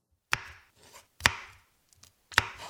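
Knife chopping zucchini on a board in a downtown Toronto kitchen: three crisp, sharp strikes at an unhurried pace, with faint softer taps between them.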